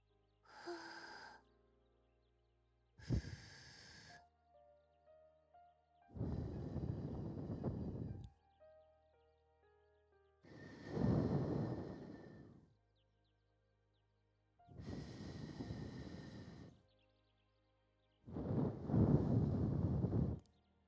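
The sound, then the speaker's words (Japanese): Soft ASMR blowing into the listener's other ear: six quiet, breathy puffs of air separated by pauses, the later ones longer and fuller. “じゃあ反対のお耳にしましょうか。しっかりお耳ふうふうして、”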